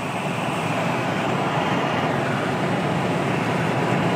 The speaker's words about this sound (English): And I apologize about the wind, if there's a wind sound. I have all my windows rolled up, I believe.